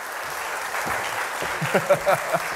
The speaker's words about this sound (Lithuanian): pasitikime plojimais